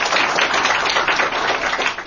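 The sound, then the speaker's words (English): Loud audience clapping at a panel discussion event welcoming two state governors: a thick, continuous burst of many hands that stays strong and fairly even throughout, with no one speaking over it. “You can clap.”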